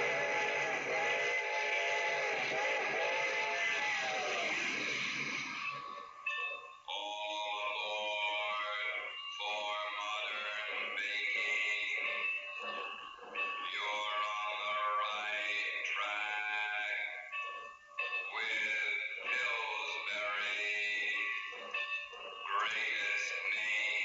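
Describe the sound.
A train sound effect tied to Grand Central Station: a loud, sustained wailing whistle-like tone opens, then people talk over continuing background noise.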